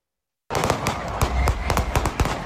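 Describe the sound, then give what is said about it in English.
Gunfire at a crowded Super Bowl celebration in Kansas City: many sharp cracks in quick, uneven succession over dense, loud background noise that starts abruptly after a brief silence. “New video released by TMZ Sports shows the depth of the chaos as shots rang out at Wednesday's Super Bowl celebration in Kansas City.”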